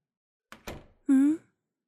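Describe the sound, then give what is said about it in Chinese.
An entrance door shuts by itself with two quick, dull thuds close together, followed by a short vocal exclamation. “哎呀，入口的门关上了呢。那扇门原本打开着，却擅自关上了。”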